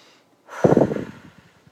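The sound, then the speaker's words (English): A single slow, deep breath taken to ease tension held in the shoulders. It is one rough, rasping exhalation that swells quickly and then tails off gradually. “So I'm just going to breathe into that space right now.”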